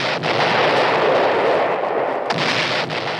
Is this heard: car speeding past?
no